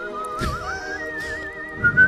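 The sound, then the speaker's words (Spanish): A whistled melody from a new version of a song, a single clear tone that wavers, climbs a little and then holds at a steady pitch, with faint low background sound and no speech. “Y el silbidito es.”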